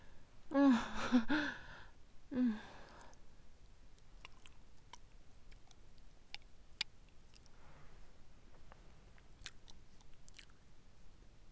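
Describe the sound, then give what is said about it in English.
Chewing chocolate: soft, sticky mouth clicks and small crunches tick irregularly and quietly, following a couple of brief breathy vocal sounds at the start. “This is my favorite chocolate. Then let me taste more.”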